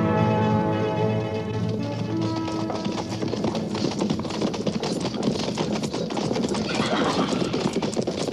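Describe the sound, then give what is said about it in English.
Horses of a cavalry patrol clip-clopping to a halt, a dense, brisk clatter of many overlapping hoofbeats, with tonal music fading under the hooves at the start. “And see that their horses are babied right this time.”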